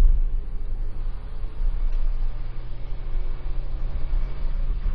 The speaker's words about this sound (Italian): C'è una salita molto ripida che percorreremo con la nostra macchina, che per la cronaca è una Ford Fiesta.